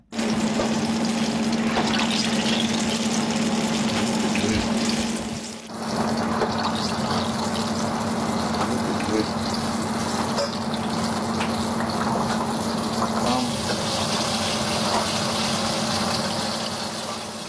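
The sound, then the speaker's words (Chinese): Eggplant strips deep-frying in hot oil in the kitchen of Lee Ho Fook, a modern Chinese restaurant in Melbourne, give a loud, steady sizzling hiss with a low hum beneath. “您现在听到的是墨尔本现代中餐厅 Lee Ho Fook 的厨房的热闹场景。那么茄子条呢，正在热油中，可以听到滋滋作响。”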